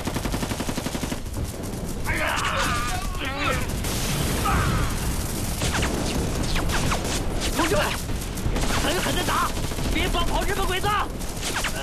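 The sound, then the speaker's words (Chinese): A volley of rifle gunfire as a squad fires on an ambushing enemy in wartime combat: a dense, continuous crackle of many overlapping shots, with shouting voices mixed in. “准备射击。 果然有埋伏，全体射击！”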